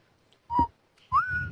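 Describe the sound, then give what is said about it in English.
A person whistles two notes: a short, steady tone, a pause, then a longer note that rises slightly and holds. The whistling is clear and fairly loud over a faint low rumble. “Just did. I whistled.”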